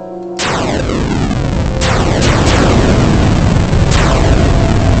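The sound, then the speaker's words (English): Harsh 8-bit Atari-style game sound generated by a one-line program: loud, continuous static-like noise with several zapping tones that sweep down in pitch, repeating throughout. “Dr. Steve says 8-bit music. Missile Command. It does sound like Missile Command.”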